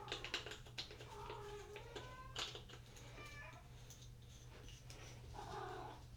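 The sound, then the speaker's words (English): Soft cat meows from a pet cat at home, a few faint tonal cries spread out over a steady low hum, with scattered light taps. “That's my cat, Bunga.”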